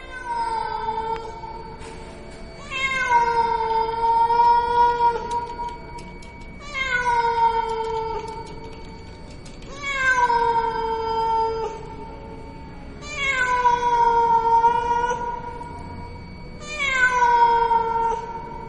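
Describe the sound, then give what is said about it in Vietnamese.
A cat meows plaintively on a roof at night, letting out long, drawn-out wailing cries that rise and fall. They repeat every few seconds, loud and alone with no voices. “tiếng con mèo nó kêu trên mái hiên. Con mèo nó kêu đến thảm thiết, đến não cả lòng trong đêm khuya vắng.”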